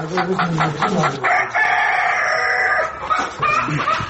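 Chickens cluck and a rooster crows on a chicken farm in Ghazni, Afghanistan. Loud, irregular clucking comes first, then one long sustained crow, followed by more scattered clucks.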